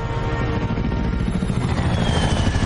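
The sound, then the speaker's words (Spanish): A helicopter approaches a city on a windy day, its rotor producing a fast, throbbing beat over a dense, steady engine roar. “Un helicóptero se aproxima a una ciudad.”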